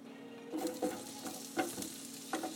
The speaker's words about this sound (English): So, it looks like my butter is melted, and now I'm going to add the onion in here. And let that saute this.